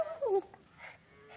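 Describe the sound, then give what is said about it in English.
A ranch dog, out among cattle struck by tick fever, gives a short high whine that falls in pitch, followed by fainter, softer whimpering sounds. “Get out of here. Get out of here. Dang fool dog will have them ticks all over him.”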